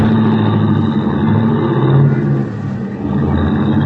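A taxi cab's engine roars steadily as it drives off, staying loud throughout with a brief dip in the middle before resuming.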